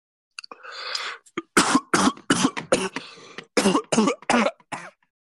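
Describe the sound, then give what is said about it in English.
A person coughs in a long fit of many harsh, sharp bursts, loud and closely spaced, preceded by a rougher, drawn-out throat-clearing rasp, with no talk over it. “sorry for me coughing”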